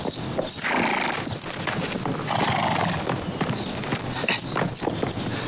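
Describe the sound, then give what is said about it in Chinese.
Horses clop and whinny as mounts are readied for a long road journey, a busy continuous stretch of hoofbeats and snorting neighs with no clear pause throughout. “这是专门给您备的马，咱们还有这么远的路。”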